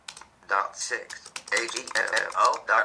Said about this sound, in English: I'm going to type in here, for example,